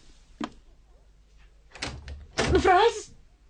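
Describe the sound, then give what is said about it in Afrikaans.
A room door thuds shut with a short, low knock, followed by rustling bursts and a brief, wavering vocal sound from a person. “Kamer se deur is nooit toe nie. Nou skielik.”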